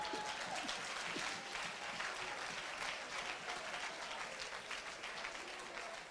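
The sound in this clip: An audience applauds during a French-language church service, the clapping faint but dense and unbroken for several seconds at an even level.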